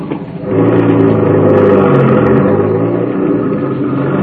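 A car's engine rumbles steadily as the vehicle makes a U-turn on a road, swelling slightly after a quieter start and then holding an even, low drone with no voices.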